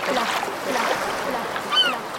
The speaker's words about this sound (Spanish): ¡Ah, cuánta paz! ¡Qué linda playa!